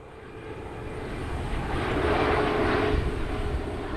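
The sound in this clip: An airplane passes over an old football field under the landing path to Toronto's International Airport. Its steady engine roar swells to a peak near the middle, then eases slightly, heard alone.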